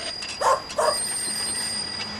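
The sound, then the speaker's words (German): A dog barking angrily as it charges at a man: two short, sharp barks close together, then only steady background noise. “Kannst du deinen Hund nicht an die Leine nehmen, Fräulein Hillmann”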